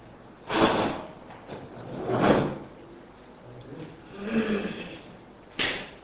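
A door is closed with four soft, sliding bumps spaced a second or two apart. The bumps are faint against a quiet background.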